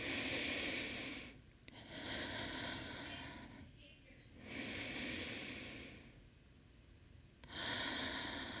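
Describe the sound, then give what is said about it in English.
Slow, deep breaths during a guided breathing exercise, with long airy inhales and exhales rising and falling in turn and separated by short pauses. “So let's take two more deep breaths.”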